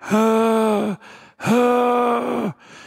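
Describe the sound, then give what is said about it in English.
A person vocally imitates a woman groaning as she lies curled up on a bed in an assisted living home. Two drawn-out, low, loud moans each sag in pitch at the end, with a breathy pause between them. “And she's groaning. This is the noise she's making.”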